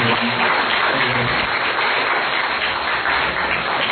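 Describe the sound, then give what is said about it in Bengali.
Applause from an audience after a recitation performance, a dense steady crackle of many hands clapping at an even level for four seconds with no pauses. “আমরা সবাই মিলে ওদের জন্য একটা হাত তালি দিই”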